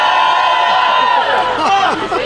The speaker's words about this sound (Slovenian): In na to vzkliki veselja, ko je trenutno najboljši kolesar na svetu pokukal iz avtobusa.